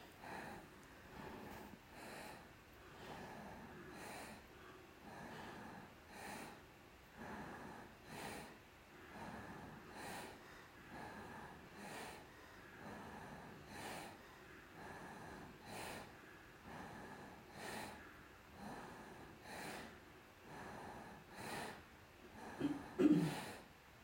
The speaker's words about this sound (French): Et le souffle de Bhastrika assez lent. Donc un trajet, le ventre qui se gonfle bien, qui se rétracte bien.